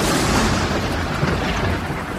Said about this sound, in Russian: Это гром в океане. Гром в океане. Да, над океаном.